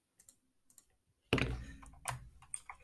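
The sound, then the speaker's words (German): Typing on a computer keyboard with clicks. A few sparse, separate taps come first, then a denser, busier run of keystrokes and clicks carries on to the end. “Ich, ich gehe auf den Link, tippe meinen Namen ein, klicke auf Weiter.”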